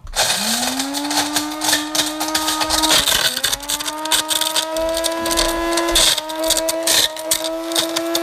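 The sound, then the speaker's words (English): A coffee grinder grinding acorns: the motor whine climbs quickly at the start, then holds a loud, steady, rattling grind with a couple of brief dips and recoveries. “It's not quite the right machine for grinding up acorns, is it?”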